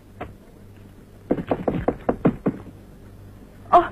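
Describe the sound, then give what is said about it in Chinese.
Knocking on a door: a quick series of sharp, loud raps bunched close together, with one lone knock a moment earlier. “我跟你说过多少次了，进来以前先要敲门。”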